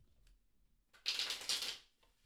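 Cards being drawn from a divination deck make a brief papery flurry of rustling and riffling, lasting under a second and swelling twice, set against faint background noise with no talk.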